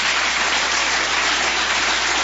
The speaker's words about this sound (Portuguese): Uma salva de palmas para Jesus.